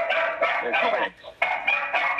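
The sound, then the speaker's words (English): A dog barks in a room during an online meeting, giving a few repeated short, high, tonal yaps in close succession with a brief pause in the middle. “whoever has the dog, please mute.”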